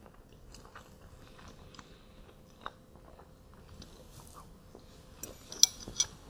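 Quiet chewing and biting while eating eggs, with soft crunches and a few light clinks of cutlery or dishes that grow sharper near the end; no talking.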